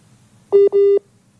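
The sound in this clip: Two steady electronic telephone tones play back to back as a phone is dialled. The second tone is longer, and both are loud, clear and alone, with no talking.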